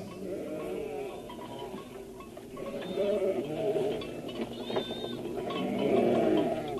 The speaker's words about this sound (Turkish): Siz de işitiyor musunuz? Evet, bir koyun sürüsü.